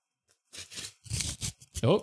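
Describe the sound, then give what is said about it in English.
A large sheet of printer paper with holes along each side is ripped up in a few quick, rough tearing bursts, followed by a short voice at the end. “It's spitting out a large piece of printer paper with holes on each side. Yep. A bunch of lines drawn like a seismograph. Yes, yes. Let's, I'm going to rip it up.”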